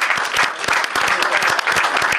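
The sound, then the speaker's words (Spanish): Loud applause from an audience of people, a dense and steady mass of hand claps that keeps the same level from start to finish with no speech. “Creo que merecen un aplauso.”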